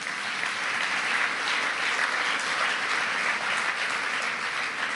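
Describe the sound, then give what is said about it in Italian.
An audience in a hall at an Italian cooperative gathering applauds with steady, even clapping that is moderately soft and continuous throughout. “Il presidente Mauro Lusetti, che è qui presente in sala, e fate un applauso anche a Mauro,”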